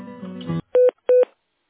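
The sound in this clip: Two short touch-tone beeps from a telephone keypad dialing in tone mode, crisp and even, separated by a brief gap.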